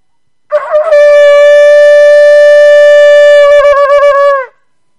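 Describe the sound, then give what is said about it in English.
A hollowed-out animal horn blown in one loud, sustained blast lasting about four seconds. The tone is reedy and rich in overtones, holds steady, then wavers into quick pulsing stutters before cutting off. “And they cut it off and they hollow it out and they make it so you can make a sound out of it. Should I try to blow it?”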